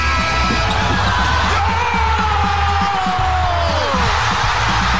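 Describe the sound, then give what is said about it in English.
A basketball rattles off the rim several times and drops through the net in a Game 7 NBA playoff game between Toronto and Philadelphia, nearly buried under a loud, roaring, yelling crowd. “You could hear the basketball bounce off the rim four times before falling through the net there.”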